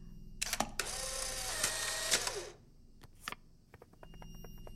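Instant camera snapping and ejecting a photo: a few sharp mechanical clicks, then a buzzing motor whir of about two seconds as the print feeds out, followed by more small clicks, all faint and without voices.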